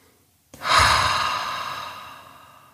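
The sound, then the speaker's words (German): One long, deep breath during a guided relaxation meditation, starting abruptly and then fading slowly and smoothly, heard alone. “Nimm ein paar ganz tiefe Atemzüge, schließ die Augen, falls du das noch nicht getan hast.”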